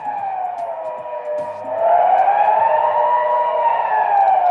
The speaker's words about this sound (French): Vous la connaissez, cette sirène prévue pour alerter la population en cas de danger ou d'autres catastrophes.